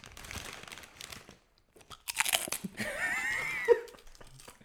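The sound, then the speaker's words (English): Someone crunches Smith's salt and vinegar potato chips: crisp, irregular bites, a short pause, then a louder, denser run of crunching and chewing. “Are they Smith's chips?”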